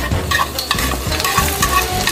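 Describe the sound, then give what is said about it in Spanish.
Garlic and onion cook in a pot over medium-low heat, a steady loud sizzle broken by repeated rhythmic stirring strokes. “empezando por el ajo y la cebolla. Dejamos que se cuezan a fuego medio-bajo durante unos 8 minutos antes de añadir el puerro y las zanahorias.”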